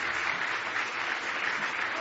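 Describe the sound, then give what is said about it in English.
A church audience claps hands in praise during a service, a dense, continuous patter of many hands at an even, fairly soft level with no pauses. “Give Him a big hand clap of praise if you love Him.”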